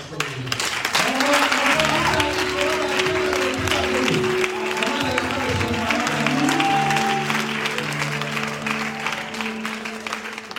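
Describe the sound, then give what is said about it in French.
An audience at a church gathering applauds and cheers to honour the women, with sustained, dense clapping under voices that call out and talk throughout. “Il faut acclamer les femmes”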